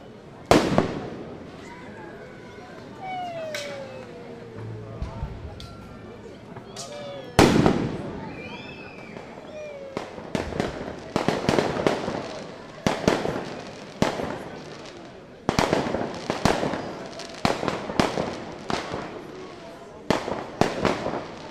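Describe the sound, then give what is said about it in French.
Fireworks resound through a city on the eve of the French national holiday: after a quieter start with a few pops, many sharp explosive bursts and crackles follow in quick, irregular succession, loud and echoing. “La veille, un feu d'artifice avancé de la fête nationale retentissait dans la ville.”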